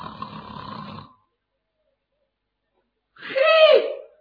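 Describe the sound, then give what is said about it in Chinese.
A voice imitates the snoring of sleeping men: a brief rough rasp, about two seconds of silence, then a single loud, drawn-out snore with a nasal, whistling tone. “再仔细一听啊，听见呼噜声”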